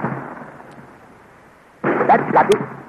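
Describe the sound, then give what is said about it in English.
Cannon fire splitting a rock, in an old adventure serial: a low background rumble gives way to a sudden loud, rough burst with crackling peaks that stays strong to the end. “They have found the range, Commander. You may fire. Fire! Look, the rock is splitting.”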